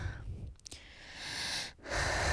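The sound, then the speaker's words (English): A person breathes heavily, out of breath. A few quiet, raspy inhales and exhales follow each other with short pauses between them. Nobody speaks. “Also, I am very out of breath.”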